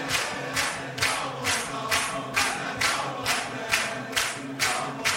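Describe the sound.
A crowd at a religious gathering claps together in a steady, even rhythm, with many regular hand claps following one another without pause.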